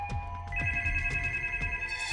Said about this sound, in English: The phone was ringing again.